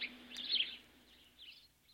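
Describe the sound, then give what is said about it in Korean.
A sparrow chirps excitedly in a fuss, giving quick, quiet bursts of high twittering notes that flutter unevenly, with the first burst louder than the later ones. “참새의 호들갑에 거위들, 닭들이 닐슨을 보았다.”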